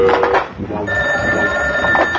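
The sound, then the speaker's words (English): A telephone ringing with a sustained electronic tone that starts partway in and holds steady to the end, over a busy background. “my other phone is ringing.”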